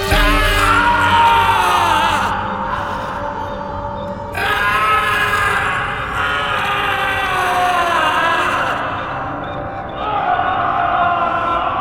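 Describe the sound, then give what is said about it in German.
A man screams in horror and pain after an ice-axe blow to the skull. The cry is loud, sustained and wavering, and carries rich harmonics across the whole stretch, dipping briefly twice before surging again. “Der Schrei des Entsetzens und des Schmerzes erschütterte die Fundamente der Festung in der Calle Vienna”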